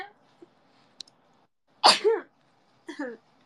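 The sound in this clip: A person's sneeze, a sharp, breathy burst followed about a second later by a softer second burst. Both stand out against near silence with a few faint clicks.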